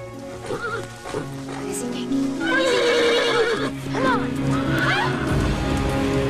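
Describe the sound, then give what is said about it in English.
A horse whinnies in several wavering calls while hooves clip-clop as it is ridden across a dried-out stream bed and along a woodland path, with sustained tones running underneath. “She rides the horse across the bed of a stream that has dried out and follows a path through the woods.”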